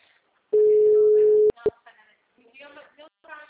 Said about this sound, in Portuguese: Eu tô ligando pra ele.